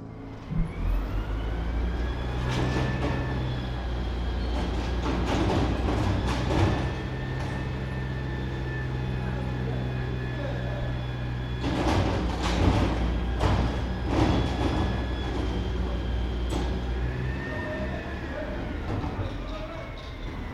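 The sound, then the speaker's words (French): Train station ambience at Gare de l'Est in Paris, a steady low rumbling hum with faint high whines, scattered clattering bursts and indistinct voices throughout. “Paris, gare de l'Est.”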